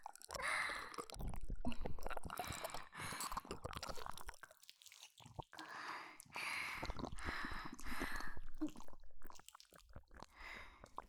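Wet squishing and sloshing as something large and hard is washed with water, a long run of irregular scrubbing bursts broken by a few short pauses.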